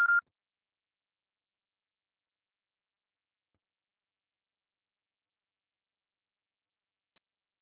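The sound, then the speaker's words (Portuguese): A voicemail beep tone sounds once at the very start, short and mid-pitched, followed by silence. “Deixe seu recado, você só será tarifado após o sinal.”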